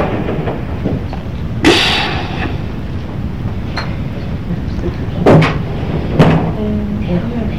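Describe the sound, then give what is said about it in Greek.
A door being closed, heard as a few sharp bangs and clatters spread over several seconds against low, steady background noise. “Να κλείσει την πόρτα που μας βλέπουν.”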